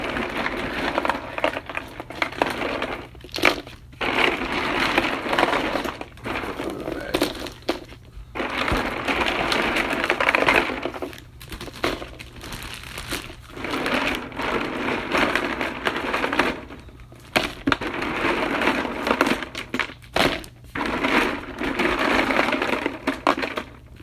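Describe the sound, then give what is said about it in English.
Unmelted ice cubes being crushed in long grinding bursts, a dense crackling crunch that runs in many stretches broken by brief pauses over about 24 seconds, with no talk. “I'm gonna take all the non-melted ice cubes.”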